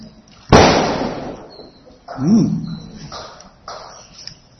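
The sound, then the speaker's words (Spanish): A single loud gunshot-like bang cracks out abruptly and decays over about a second, followed by a brief voice and quieter background noise. “No me disparen, no por ahí están disparando.”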